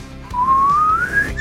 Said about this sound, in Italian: Col fischio!